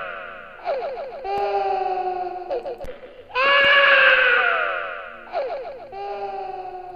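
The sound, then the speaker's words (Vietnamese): A child crying and wailing in several long, strained bursts, loud and high, with wavering pitch and short gaps between cries. “Còn vương lại tiếng trẻ con khóc đến thảm thiết.”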